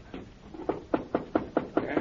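Knocking on the door of an office wagon: a quick, even series of about eight sharp raps, with a fainter first knock.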